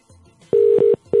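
Ringing tone on an outgoing phone call to a UK number, a steady low-pitched buzzing tone in short bursts, one burst briefly broken in the middle, then a pause and the next burst starting.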